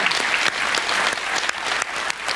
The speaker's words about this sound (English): I think I deserve a little round of applause.